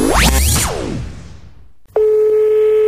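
A steady telephone ring tone on the line as a radio station calls a listener. It follows a burst of sweeping electronic whooshes and a short gap, then holds as one even, sustained tone.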